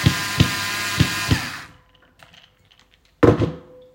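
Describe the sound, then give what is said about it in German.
A cordless screwdriver drives a screw into a bottle to open it. A steady whirring motor with a few periodic knocks runs for over a second, then goes quiet before one brief, loud clatter. “Er hat keinen Flaschenöffner, aber er findet jetzt in seinem Baudings innen einen Akkuschrauber. und eine Schraube.”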